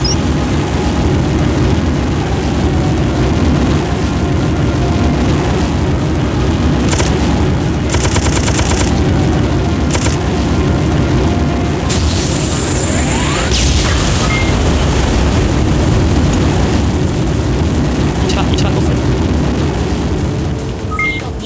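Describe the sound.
Explosion blasts and gunfire fill a shooter video game, a dense, loud, continuous roar of booms and rapid shots running the whole length without let-up.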